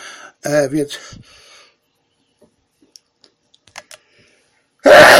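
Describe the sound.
A sharp, noisy sneeze bursts out at the very end, after a short stretch of speech and a few faint clicks in near silence.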